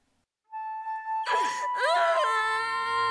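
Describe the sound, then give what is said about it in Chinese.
A person crying in anguish, a loud, continuous moaning wail with wavering, sliding pitch that lasts about three seconds, with no clear words. “听着平庸的哭声和他对祖昌的质问”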